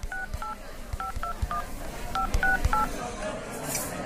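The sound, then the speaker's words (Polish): Touch-tone beeps as a telephone number is dialed, a quick series of short, clear paired tones at an uneven pace, each with a soft key click beneath and no voices. “Zaraz zadzwonię do Joli, ona się tym zajmie.”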